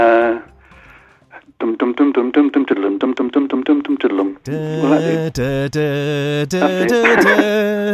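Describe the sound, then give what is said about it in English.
A voice hums a 1965 television theme tune, first as a run of short, bouncy staccato notes, then as louder, longer held notes. “The most familiar Avengers theme was used from 1965. Who was the composer, and can you hum a bit of it? It was Laurie Johnson.”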